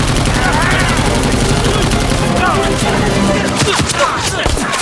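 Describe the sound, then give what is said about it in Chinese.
Machine gun fire in a war drama scene: dense, sustained, loud gunfire that fills the whole stretch, with sharper bursts standing out toward the end. “给我上机枪！”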